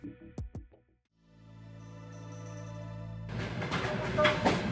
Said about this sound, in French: Le train avance prudemment sur les voies dans la nuit noire.